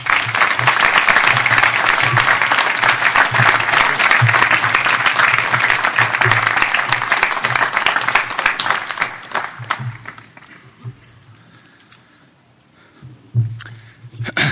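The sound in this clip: Commencement audience applauding to welcome a speaker back to the stage: dense, loud clapping for about ten seconds, then thinning to scattered claps with a brief swell near the end.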